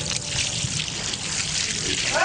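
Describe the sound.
Water pours over a person until he is soaked, a continuous broad rushing and splashing hiss that holds a fairly even level throughout.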